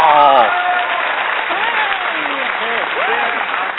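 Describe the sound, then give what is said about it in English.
Loud, continuous applause from an audience giving an ovation to a guest on stage, clapping mixed with cheering and whooping voices. “That's the best ovation I've ever got.”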